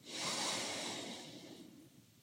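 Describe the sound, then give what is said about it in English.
A single deep inhale during relaxation breathing, a slow airy breath drawn through the nose that swells quickly, holds, then fades away gradually. “Inhale again.”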